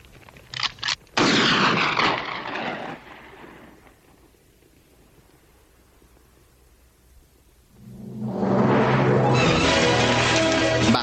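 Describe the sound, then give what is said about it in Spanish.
Gunshots in a 1973 western film scene set among sand dunes: a few quick sharp cracks, then a loud blast that rings and fades over several seconds. A quiet stretch follows before another loud, sustained roar rises and holds. “Él vuelve a disparar una vez más sobre Len y los demás, y luego da una calada a su habano.”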